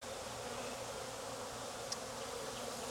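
Honeybees buzz inside a hive with a steady, unbroken drone at a fairly low level, marked only by one brief click.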